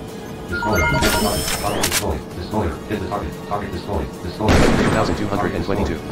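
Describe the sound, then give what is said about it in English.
Cannon blasts and impact explosions from a destroyer firing on and hitting a target in a naval combat video game. Two loud bursts stand out, one early and one late, amid busy game effects and talk. “Destroyer, hit the target.”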